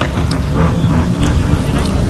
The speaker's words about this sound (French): la voiture numéro 4 arrive ici, et voiture numéro 4 qui est celle de Thierry Laulong, cette Volkswagen. Attention, la vitesse est enclenchée, et voilà que Ryan Gani va partir du côté de Francky pour le départ lancé.